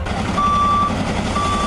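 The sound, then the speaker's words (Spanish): Reversing beeps from a firefighting truck at a wildfire in the Cinco Villas area of Zaragoza, Aragón: two long, high electronic beeps over a broad rumble of engine and outdoor noise. “Este es el sonido de los bomberos apagando las llamas.”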